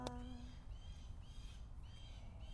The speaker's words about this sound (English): There's a bird singing with us. I wonder if it's is that a blue jay? I think that is a blue jay.